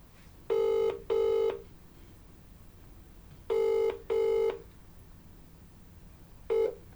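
Ringback tone of a phone call being placed: two double rings of short steady buzzing tones, then the clipped start of a third, fairly faint over a low background hiss.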